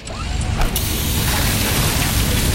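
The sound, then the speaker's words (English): A busted hydraulic hose bursts: a brief pop gives way to a loud, steady, rushing hiss that carries on to the end. “Oh, busted hose.”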